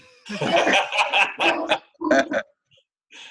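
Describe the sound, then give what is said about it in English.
A dog barks in several loud, rough bursts in quick succession, then goes quiet before a short, fainter final sound. “Right. That's my dog.”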